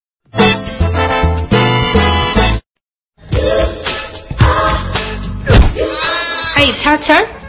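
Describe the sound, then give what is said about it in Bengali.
A goat bleating loudly in repeated wavering, nasal cries, in two bursts split by a short silence, the later calls rougher and more strained. “এই ছাগলটা কি রে, এটা জুড়ে তো কাপড় চোপড়ও পরা যাবে না।”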